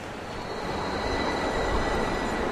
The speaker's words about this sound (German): Die Bahn ist angekommen und hat Menschenmengen ausgespuckt, die sich gemeinsam die Treppen hochschieben.